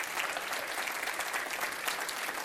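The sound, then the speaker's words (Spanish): Applause from a church audience honoring Christ: steady, dense clapping from many hands, loud and even throughout with no voices standing out. “Dele otro aplauso a Cristo.”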